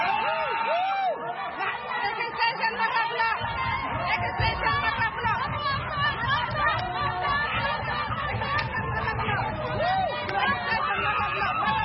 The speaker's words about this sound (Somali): iyadoo intaasi kadibna fadhiga goluhu isku beddelay buuq iyo sawaxan.